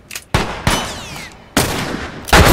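Gunshots from a slow-firing weapon in a video game: a few sharp, loud blasts with irregular gaps, each followed by a short fading tail.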